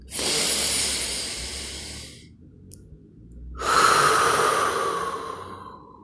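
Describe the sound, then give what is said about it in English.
A deep breath in, heard as a long, airy hiss through the nose and mouth, followed by a short silent pause and then a second long breath that swells and fades away. “relax your shoulders and take a deep breath in”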